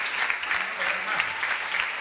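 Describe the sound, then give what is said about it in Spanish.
Congregation applause in a Spanish-speaking church as the members clap for four people, a steady, full burst of many hands clapping at an even level throughout. “Denle un aplauso a esos cuatro del Señor.”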